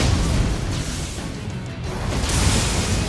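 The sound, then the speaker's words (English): Fiery crashes and bursts from fireballs striking the battlefield in a video game fight, merging into a loud, dense, continuous roar of explosive noise with no clear gaps between impacts and no voices. “his mouth stomach is spitting out fire into his hands. He's putting fireballs onto the battlefield.”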